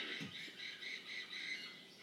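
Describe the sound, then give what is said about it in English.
Faint, harsh squawking of computer-generated birds in a low-budget horror film, repeated shrill calls in a rapid run with no voices. “and then the CGI birds are back.”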